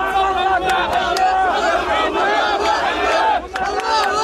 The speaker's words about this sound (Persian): شادی اسرائیلی ها به خاطر آزادی شماری از گروگان ها از دست حماس.